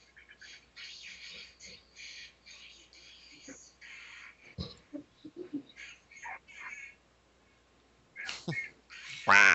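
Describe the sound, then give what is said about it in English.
A person speaking in a quacking, duck-like voice, as heard on the phone calls in the horror film The New York Ripper. Many short, nasal bursts come in irregular phrases, mostly faint, with a louder burst at the end. “That's a quacking, yes.”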